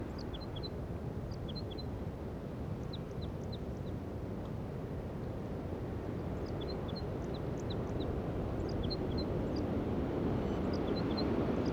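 Wild crossbill song: short, high chirping notes in scattered small clusters, faint above a steady, loud rumbling background noise throughout.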